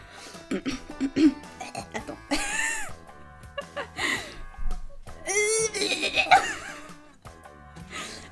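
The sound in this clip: Throat clearing in a few rough, raspy coughing bursts, moderately loud, with quieter stretches and voice sounds between them.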